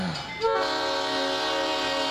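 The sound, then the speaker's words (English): A train horn blares at a railroad crossing: a loud, steady, sustained blast that starts sharply and holds its harsh multi-tone chord without a break to the end. “This train came out of nowhere. I tried to beat it.”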